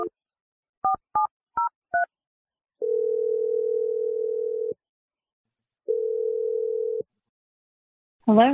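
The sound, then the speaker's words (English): Touch-tone dialing of a phone number: a few short keypad beeps, each a different pitch, followed by two long, steady line tones separated by a gap of silence. “I'm going to dial Stephanie's number, and let's see what she has to say, all right?”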